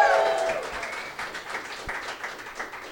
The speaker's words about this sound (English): You can applaud for it if you want. You don't have to. There was just one person clapping